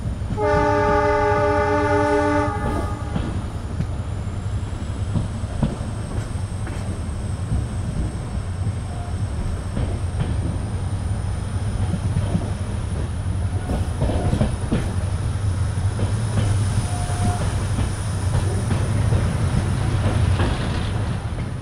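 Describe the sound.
A train travels on rails with a loud, steady rumble and rattle that runs without a break for the whole stretch. A sustained horn-like tone sounds over it at the start.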